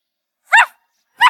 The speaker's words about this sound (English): The puppy is asking his friends to play.